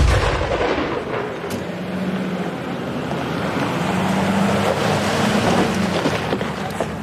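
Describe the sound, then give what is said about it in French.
An artillery shell fired during a military exercise, heard as a deep, rolling low rumble that lingers with wind-like noise and no clear sharp crack. “Ça a été le tir, ça s'est bien passé ?”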